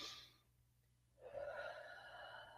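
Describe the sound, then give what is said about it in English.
One long, deep breath is drawn in, soft and faint, after a brief quiet pause. It is heard alone, with no talk over it. “So collectively, can we all just be like, okay, let's take a deep breath. Ready?”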